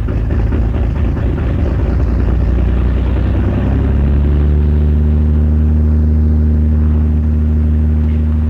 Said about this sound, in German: Ein Hubschrauber des Typs Puma startet zu 6 Beobachtungsflügen in der Woche.